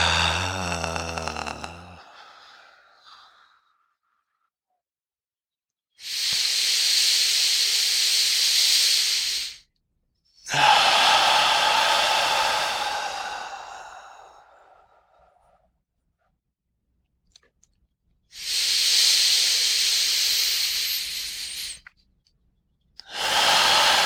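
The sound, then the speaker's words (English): Long, steady breathy exhales from an extended-exhale belly-breathing exercise, each a soft hiss. Three sustained breaths are separated by silent pauses, with a fourth starting at the end. “Okay, three more. Overextending your exhale.”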